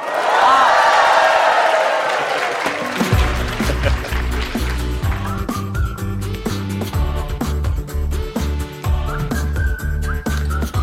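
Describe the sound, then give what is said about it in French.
A stadium crowd doing a Mexican wave at Stade de France, a loud swelling roar of cheering for about two and a half seconds before rhythmic music with a steady beat takes over. “Et vous savez que le public du 105, il a prévu aussi une reprise. C'est pas vrai. Si, les meilleurs hola du Stade de France.”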